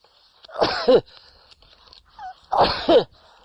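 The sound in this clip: Two sneezes, each a sharp, loud burst, sound about two seconds apart with near silence between them.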